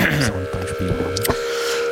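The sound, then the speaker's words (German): Feedback from a Dapper spring reverb on a modular synthesizer: a steady humming drone with layered tonal lines, shifting low harmonic bursts in the first part and a sharp click partway through. “Kurze, es ist eine Premiere, also es ist eine Reise durch die Zeit und wir fangen an mit dem Feedback des Dapper Spring Reverbs.”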